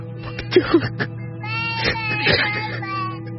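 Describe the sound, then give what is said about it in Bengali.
A person cries in broken, whimpering sobs that rise and fall in short, uneven bursts over a steady low tone. “Sanu তোমাকে কাঁদতে বারণ করছে। না না, আর কাঁদবো না”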